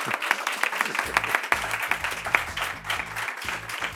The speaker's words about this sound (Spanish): ¿Ustedes tienen a bien darle un aplauso a estas tres personas que han estado con nosotros y que se oiga que están aquí?